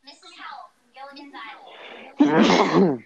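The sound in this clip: A single loud sneeze bursts out after a few seconds of people talking, with a sharp onset and a voiced, tapering tail.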